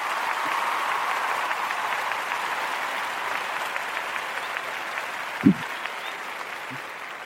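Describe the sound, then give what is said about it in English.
Applause from an audience welcoming the Christian Brothers band onstage: dense, steady clapping that holds at an even level throughout, with one brief low thump partway through. “So put your hands together and welcome the Christian Brothers band.”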